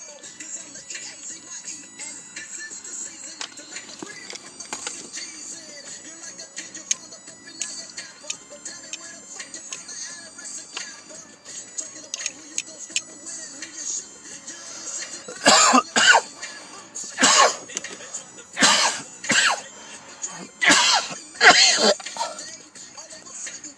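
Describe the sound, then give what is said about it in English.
Someone takes a dab of cannabis concentrate: a faint steady hiss with scattered small ticks gives way to a burst of harsh, repeated coughing and throat clearing near the end. “Excuse me, I'm going to take another dab.”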